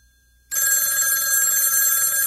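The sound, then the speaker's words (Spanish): A telephone bell rings loud and continuous, a bright metallic trill that cuts in abruptly after a short near-silence and holds steady to the end, with no voices. “¿Es que nadie va a responder al teléfono?”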